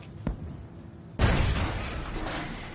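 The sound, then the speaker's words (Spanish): Anti-aircraft flak bursting during a Second World War bombing mission: a faint short pop, then a sudden loud blast that holds on as a broad, rumbling roar. “Ahora aparece la artillería antiaérea que deja rastros de humo a su paso.”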